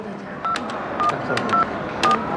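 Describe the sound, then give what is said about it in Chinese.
Telephone keypad dialing tones as a room number is keyed in: four short, evenly spaced beeps, each starting with a faint key click. “我朋友住在这儿，我给他打个电话。”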